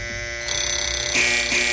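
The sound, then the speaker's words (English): An alarm clock rings as a morning wake-up cue: a harsh, bright electronic buzzing that steps up in loudness twice within under two seconds, heard without talk. “All right, there goes your alarm. Time to get rolling, everybody. No snooze alarm.”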